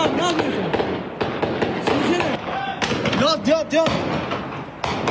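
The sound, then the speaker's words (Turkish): Gunshots crack repeatedly during an armed street clash between groups sheltering behind walls and vehicles, many sharp bursts in an irregular series, with shouting voices in between. “Peşi sıra ateşlenen silahlar ve yaşanan çatışma anlarını bölgedeki inşaat işçileri saniye saniye kaydetti.”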